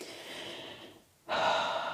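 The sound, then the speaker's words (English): A person taking a breath: two airy, breathy rushes separated by a brief silent pause, the second louder and sharper like a gasp, close and with no speech. “I'll just take a breath.”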